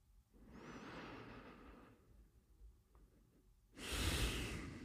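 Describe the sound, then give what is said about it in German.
Deep breathing: a long, soft breath lasting over a second, a pause with faint rustles, then a louder, rushing breath that runs to the end. “Wenn du soweit bist, nimm jetzt 3 tiefe Atemzüge ein und aus.”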